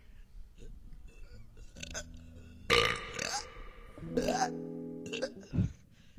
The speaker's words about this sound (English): That's a good one. I can smell that one. Good one. I like that one. We're having a beer burping contest.